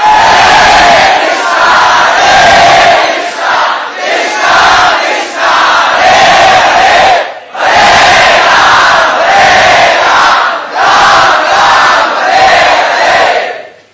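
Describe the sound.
A large crowd chants loudly in unison. Forceful, rhythmic surges of voices are broken by short pauses, with a slightly longer break near the middle before the chanting resumes at full volume.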